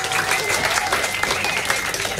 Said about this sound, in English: Huge round of applause for Score Girl, please.